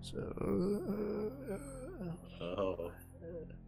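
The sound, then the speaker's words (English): A voice imitates wailing moans rising from a decayed town with a broken, non-functioning fountain: long wavering, gliding tones, loud and sustained, in two drawn-out phrases separated by a brief dip. “And all you hear from the town, you just hear like wailing moans.”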